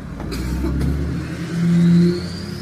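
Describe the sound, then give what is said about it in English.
A Ford F-250 pickup truck engine revs as a low, steady rumble that swells louder for about half a second near the middle, then eases back. “Oh, sounds like an F-250 right there.”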